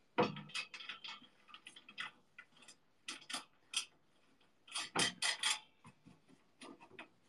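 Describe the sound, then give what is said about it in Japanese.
Clicking and rasping as a screw is driven in during an assembly job. Faint, irregular bursts of short ticks are separated by brief pauses, with no voices. “で、もう一個ネジを止めて。”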